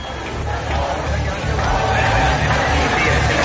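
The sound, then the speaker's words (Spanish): Crowd hubbub from a housing protest rally in Barcelona: a steady, dense wash of many voices with low rumbling noise, continuous throughout without any single clear voice standing out. “Este es el sonido de la concentración de esta tarde en Barcelona.”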